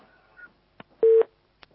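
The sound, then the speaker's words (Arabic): A phone line tone sounds after a caller's call drops: one short, steady electronic beep stands out, framed by a few faint brief clicks on an otherwise quiet line. “يبدو ان الاتصال انقطع، على اخينا ان يحاول الاتصال هنا مره ثانيه.”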